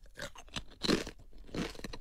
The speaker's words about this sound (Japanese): どうぞ召し上がってみてください。 いただきます。